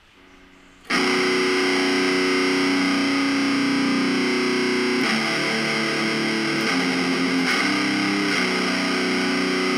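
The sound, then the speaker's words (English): An electric guitar, heavily distorted, is struck on the low sixth and fifth strings together after a short quiet lead-in, ringing out in a loud, thick, sustained chord with a few re-struck changes in its second half. “when you want it to be even a little louder, you hit the sixth and the fifth string.”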